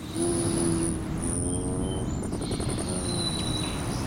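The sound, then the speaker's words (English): Hummingbird wings whirring: a continuous buzzing whir with thin, high, steady whistling tones and a rapid pulsed trill partway through. “This whirr of wings must mean the hummingbirds are back.”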